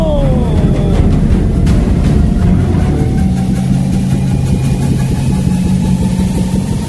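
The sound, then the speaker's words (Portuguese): Time machine starting up, a sci-fi sound effect played at a live melody DJ set. A loud, continuous engine-like rumble hums throughout, with a falling whine at the start and a thin rising tone later. “Vamos ligar a máquina do tempo. Ligando a máquina do tempo.”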